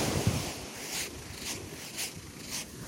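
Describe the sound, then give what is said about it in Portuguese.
Footsteps walking on sand by the sea: soft, crunching steps fall in a steady rhythm over continuous wind and surf noise, with no voices. “no finalzinho aparece eu andando na areia”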